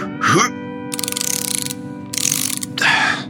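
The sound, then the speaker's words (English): A ratchet clicks as something is tightened during a repair, sounding in a few short bursts of rapid, evenly spaced clicks. “And now all I've got to do is tighten this.”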